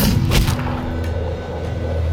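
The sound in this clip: A pistol is fired by a soldier on a rearing horse. A sharp crack stands out early over a steady, low rumbling background, and a fainter transient comes soon after.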